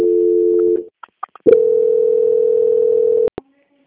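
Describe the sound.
Telephone transfer tones on a customer-service call: a steady low tone, then a few short blips, then a longer unbroken tone that cuts off into two sharp clicks.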